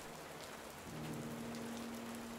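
Rain falls at night over a village as a soft, continuous hiss, faint and even throughout, with a low steady hum underneath.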